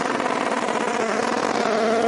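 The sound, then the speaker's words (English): A race car's Gibson engine hammers off the rev limiter during a motor race, producing a loud, steady, buzzing drone with rapid stuttering pulses throughout. “that sounded fantastic, that Gibson engine, right, hammering off the rev limiter.”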